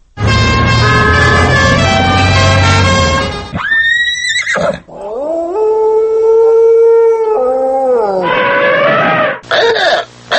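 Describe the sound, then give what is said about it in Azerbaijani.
A novelty car horn imitating a wolf howl, one of the animal-sound horns heard on city streets. It sounds as a long, loud howling tone that rises, holds and falls, after a harsh whinny-like blast, with further horn calls at the end. “Canavar ulamasından tutmuş at kişnəməsinədək müxtəlif səslər çıxaran avtomobil siqnallarının sayı getdikcə artır.”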